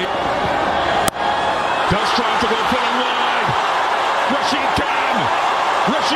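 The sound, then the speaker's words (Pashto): Cricket fans in a stadium cheer a Gujarat Titans win in an IPL match after a last-ball six. Their dense, steady roar fills the whole clip, with a sharp crack early on and a voice talking over the crowd. “په لوبغالی کې د ګجرات ټایټنز لوبډلې د بریا له امله د مینوالو د خوښۍ شور.”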